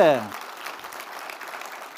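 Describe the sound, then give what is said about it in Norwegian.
Applause for church volunteers rises just after a brief spoken voice at the start. The clapping that follows is moderate and even, a steady patter of many hands. “de fortjener en applaus. Kan vi gi dem en applaus, altså?”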